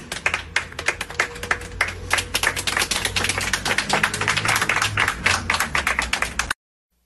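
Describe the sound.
A crowd clapping in honour of those killed in the protests, a dense, continuous patter of many hands at steady loudness that cuts off abruptly near the end.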